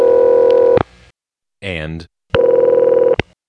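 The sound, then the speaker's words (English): Two steady, buzzing ring bursts from a Bell System step-by-step PBX telephone line, each ending abruptly, with a short voice heard in the pause between them. “those rings with that variation did appear on most Bell System's step-by-step PBXs and all of the early crossbar PBXs”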